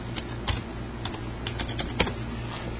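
Keyboard typing while something is written down: scattered, light keystrokes tap at an irregular pace over a steady low hum, with no voices.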